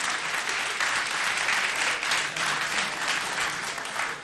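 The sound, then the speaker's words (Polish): An audience applauds after a band's song, a dense, even clapping of many hands that holds steady throughout and tapers slightly at the close. “Mam nadzieję, że oklaski były tylko w połowie udawane.”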